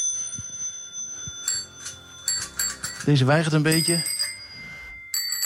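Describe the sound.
Bicycle bells ring on old and new bikes in a bicycle shop: several bright, metallic trills in quick bursts, some short and some longer, with a man speaking briefly between the rings.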